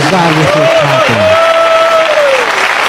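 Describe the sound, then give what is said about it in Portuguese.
Congregation clapping for Jesus during a church service: steady, dense applause with a voice calling out a long, sustained note over it. “Para Deus com palmas para Jesus.”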